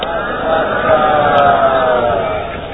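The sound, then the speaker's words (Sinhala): A crowd chants Sadhu, the Buddhist acclamation, to welcome a venerable monk. The many voices merge into a sustained, dense chorus at a steady loudness. “සියලු දෙනාම සාදුකාරයක් පවත්වලා උන්වහන්සේ පිළිගනිමු.”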